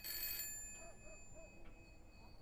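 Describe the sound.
A telephone rings: a short, bright burst of ringing at the start, then faint sustained tones that carry on quietly to the end, with no talk.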